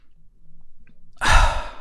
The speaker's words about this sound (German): Und jetzt nimmst du noch einen tiefen Atemzug ein und aus, kommst ein bisschen zur Ruhe.